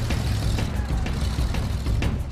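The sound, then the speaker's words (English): Deep, steady engine roar of a tracked vehicle's meaty V8 powering through a swamp with its tracks fully submerged, a continuous low rumble at an even, loud level throughout, with no voices. “Even though the tracks are completely submerged, they're giving good traction, and the meaty V8 engine is powering through the swamp.”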